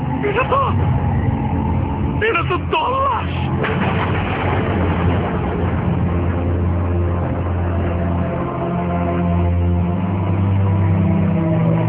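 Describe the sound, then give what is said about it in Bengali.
A hospital vehicle arriving, its engine giving a steady low rumble throughout, with voices briefly heard over it early on. “হাসপাতালের গাড়ি হাজির হয়ে গেছে”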